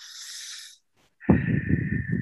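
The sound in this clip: A deep breath drawn in through the nose by a parent steadying themselves. A soft, airy hiss is followed by a short silence, then a louder, rougher rush of air carrying a thin whistling tone.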